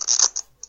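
A quick papery flutter comes from a riffle cut of a deck of old business cards: one short scratchy burst, a smaller one right after, then a faint tick.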